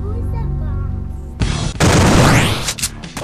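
Gunfire from an enemy boss in a video game erupts as loud, dense booming bursts of shots, following a quieter opening stretch.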